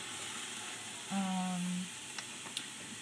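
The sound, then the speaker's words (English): Tomato paste sizzling in a hot pan: a faint, steady frying hiss running throughout, broken by a couple of tiny crackling ticks. “I'm going to add 1 tablespoon of tomato paste,”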